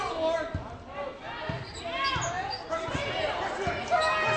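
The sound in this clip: A basketball dribbled on a hardwood court during a women's game: several sharp, hollow bounces in a fairly steady rhythm beneath continuous play-by-play commentary.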